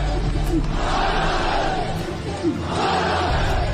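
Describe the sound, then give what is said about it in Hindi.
Street protesters chant revolutionary slogans against the army, a loud, rhythmic mass of voices rising and falling in repeated calls, with a brief dip in the middle before swelling again. “आज उन्हीं घरों की असमत सड़कों पर उतरकर फौज के खिलाफ इनकलाब के नारे बुलंद कर रही हैं।”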